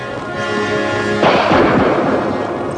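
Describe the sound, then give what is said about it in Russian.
A single gunshot, fired at a rider: one loud, sharp blast that rolls into a rumbling tail, cutting off a sustained tonal background that plays beforehand. “Я выстрелил на удачу.”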